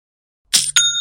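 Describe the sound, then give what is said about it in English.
Shopify's new-sale notification sounds after a moment of silence: a short, bright two-part chime whose first burst is noisy and whose second rings on with sustained high tones. “You hear that sound? You should know that sound by now, young and profiters, but in case you don't, that's the sound of another sale on Shopify and the moment another business dream becomes a reality.”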